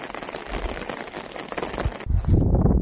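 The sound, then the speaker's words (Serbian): Rain falls on a snow-covered ski resort that has no skiers yet. It makes a steady, dense patter and hiss throughout, and the texture shifts to a lower, heavier wash near the end. “ima snijega, ali pada kiša.”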